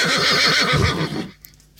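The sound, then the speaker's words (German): A horse whinnies loudly, a quavering, wavering neigh that holds for about a second before trailing off, leaving near silence with a faint tap at the end. “Ich glaube, mein Pferd hat noch Durst. Ich muss ihm, glaube ich, noch was zu trinken bringen.”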